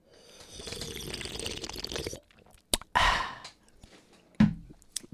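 Someone drinks warm pineapple juice, a long stretch of sipping and slurping followed by a few sharp mouth clicks and a breathy exhale.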